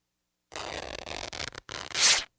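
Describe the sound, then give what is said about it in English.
Fabric tearing as panties are ripped off: rough, rasping rips in a few bursts, ending in a louder hissing tear. “Shit, did you just rip my panties off?”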